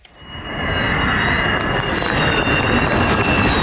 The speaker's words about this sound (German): Jungfernflug des Tankkappenjägers Khan, made in Türkei. Nur das Triebwerk muss aus den USA zugekauft werden, noch.